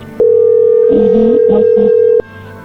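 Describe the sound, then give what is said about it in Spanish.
A telephone signal sounds for an incoming call: a single steady tone that holds for about two seconds and then stops, while faint muffled voices murmur beneath it. “A ver, entró ahí la llamada, contéstale tú.”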